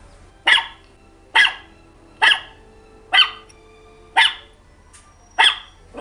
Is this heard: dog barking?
yes